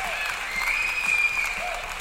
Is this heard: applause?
yes